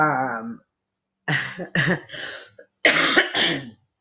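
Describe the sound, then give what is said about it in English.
Harsh coughing from a person with allergies: several rough, loud bursts in quick clusters after a brief voiced throat sound, with no talk. “sorry, guys, I had a cough.”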